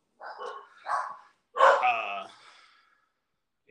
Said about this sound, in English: Sorry about the dogs.